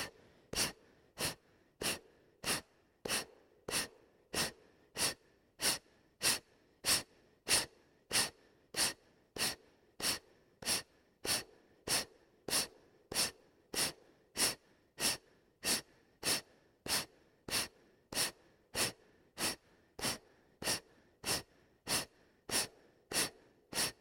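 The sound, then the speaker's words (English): Forceful exhales in a seated breathing exercise: a long, evenly spaced series of sharp, quick breaths blown out, each one short and airy, keeping a steady rhythm throughout. “And let's begin exhaling. Exhale, exhale.”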